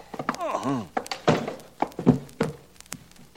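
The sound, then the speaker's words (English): A man is struck over the head with a gun butt: a few dull, heavy thunks mixed with a voice. “no matter how smart a guy is, you whack him over the head with a gun butt, and down he goes”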